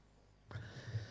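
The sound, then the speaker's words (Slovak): A sensitive microphone is bumped: a sudden low thump after a quiet stretch, followed by a rumbling handling noise that lingers to the end. “pardon, nechcel som ťa udrieť. Je citlivý tento mikrofon.”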